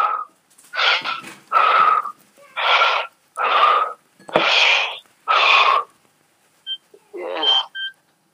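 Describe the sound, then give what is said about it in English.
Heavy breathing in and out through the mouth by a stroke patient: many loud, wheezy, whistling breaths in a steady rhythm with short pauses between them, ending with a few weaker, shorter breaths. “Breathe in and out 5 times heavily with your mouth.”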